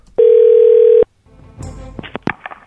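A steady, loud telephone dial tone holds for under a second as another number is dialed, then cuts off. Faint line noise and a few brief, sharp clicks and tones follow.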